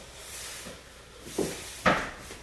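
A panel slides forward and latches into a front panel: a soft scraping slide followed by two short, sharp clicks as it locks into place.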